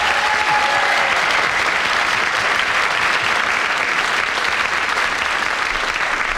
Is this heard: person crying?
no